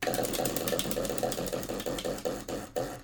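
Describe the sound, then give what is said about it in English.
Wheel of questions spinning: rapid, rhythmic clacking ticks that gradually spread out and slow toward the end, fairly loud, with no talk. “we should definitely spin our wheel of questions and get on with the show. Let's spin the wheel.”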